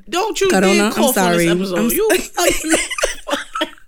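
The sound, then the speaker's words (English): Coughing from allergies, with pollen irritating the throat, follows a hard laugh: a loud, sustained voiced laugh gives way to several short, harsh coughs mixed with breathy vocal sounds. “I got allergies. Pollen me in my throat. Yo, damn. You know how like sometimes I'll laugh too hard, pause, and like I'll cough.”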